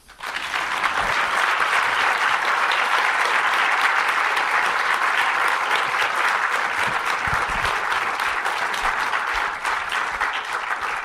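An audience applauds to welcome a guest onto the stage, with dense, steady clapping that starts abruptly and stays loud and even throughout.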